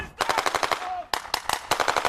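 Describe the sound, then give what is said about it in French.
Rapid bursts of machine-gun fire from soldiers in winter camouflage storming a target during a Norwegian army exercise in snowy northern Norway. Many loud, sharp shots come in quick bursts with brief pauses between them. “le char s'arrête, la porte arrière s'ouvre et des soldats en treillis de camouflage hivernal se précipitent vers leur cible en faisant crépiter leurs armes.”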